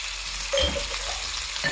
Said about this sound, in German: Es wird fleißig gebrutzelt, gebraten und angerichtet.